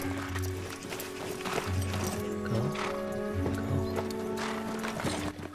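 Hoofbeats of several horses ridden away from a cave, a continuous rapid clip-clop that stays fairly even throughout, with sustained music underneath.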